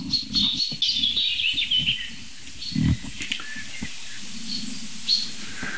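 Thrushes sing outdoors at night, a series of high warbling phrases that swell and fade over a steady low rumble.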